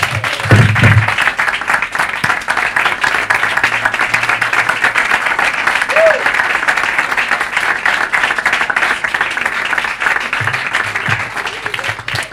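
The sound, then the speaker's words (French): Sustained applause comes from a church audience honouring people for what they have done. It is a dense, steady wash of clapping at an even loudness for about twelve seconds, with no speech over it. “Mais déjà, au vu de leur parcours, est-ce qu'on peut les honorer, les acclamer?”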